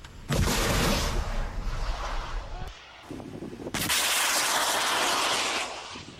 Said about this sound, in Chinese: 实弹射击暨天马操演任务，是由陆军联兵584旅反甲排官兵单纲依序执行托式2A 飞弹监测射击以及托式2B 飞弹的验证射击。 发射喽！